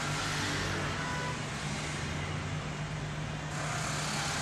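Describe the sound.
A car's engine drones steadily while driving, a continuous low rumble mixed with road noise at an even, moderate level, with no clear changes over the few seconds.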